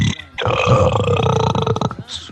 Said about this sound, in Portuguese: O cara arrotou troca-fita sem titubear.